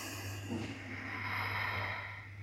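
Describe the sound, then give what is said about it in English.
A long, deep exhalation during a guided chakra meditation: a steady, breathy rush of air lasting a couple of seconds, with a low steady hum beneath it. “Let's take a deep breath together. And a full breath out.”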